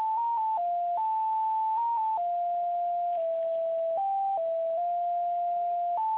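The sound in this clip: Electronic on-hold tone while a call is being transferred: an unbroken, fairly quiet pure tone that steps between several pitches in a simple melody, with no talk over it.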